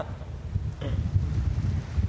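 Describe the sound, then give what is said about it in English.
Wind blowing at a beach where the waves are huge, heard as a steady, low, rumbling buffeting of gusts against the microphone with no clear voices. “So what do you think about this wind? It's making the waves huge.”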